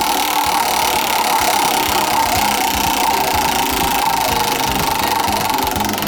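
A prize wheel spins in a party game, giving a steady, loud mechanical whirring with rapid clicking that holds even throughout, with no voices over it.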